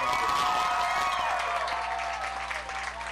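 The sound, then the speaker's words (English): Crowd applause and cheering greet a marching band introduced for a halftime show, a dense, sustained roar of clapping and shouts that stays loud and steady throughout. “please put your hands together and welcome the Zion Chapel Marching Rebel Band!”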